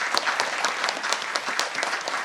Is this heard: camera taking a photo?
no